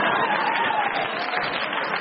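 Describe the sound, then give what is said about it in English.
A friendly crowd reacts in a continuous wash of murmuring and scattered clapping, steady in level throughout. “A bit of a friendly crowd in tonight makes a change”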